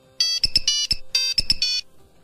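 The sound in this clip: An old Nokia mobile phone ringtone serves as a quiz buzzer: a bright electronic melody of quick beeping notes in two short phrases, loud and alone, ending in silence.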